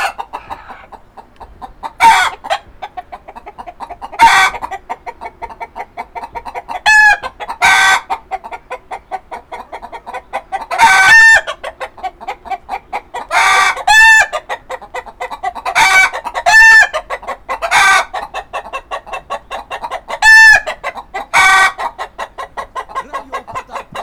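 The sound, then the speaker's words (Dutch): Chickens clucking loudly and continuously at an outdoor event, with several rooster crows rising sharply above the busy, overlapping cackles throughout. “die kippen die zijn een beetje... Hé, hey, zeg eens wat”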